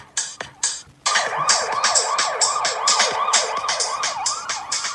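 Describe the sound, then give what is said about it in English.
An emergency vehicle siren wails loudly in many quick, repeating up-and-down sweeps after a few short bursts at the start. “The siren, why did I do that still?”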